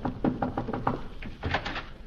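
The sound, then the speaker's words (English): Knocks on a wooden door: a quick series of firm raps, then a short pause and a second, lighter burst of knocks, heard alone. “I'll answer the door.”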